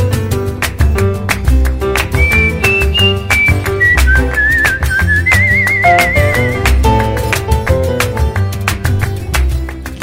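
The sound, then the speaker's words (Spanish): A person whistles a wavering, high melody over a song with a steady beat and instrumental backing. The whistled tune rises and dips in short phrases before the accompaniment carries on alone. “Y en la escalera me siento a silbar mi melodía.”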